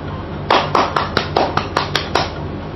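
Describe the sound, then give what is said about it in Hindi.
Applause for a contest winner comes as a run of sharp, crisp hand claps, evenly spaced in a steady rhythm and fairly loud over a low background. “इनके लिए जोरदार तालियां।”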